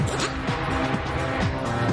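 Racing car engine accelerating down a straight after tricky gear shifts through the bends, a loud buzzing roar with repeated swooping pitch changes like gear changes, continuous with no talk.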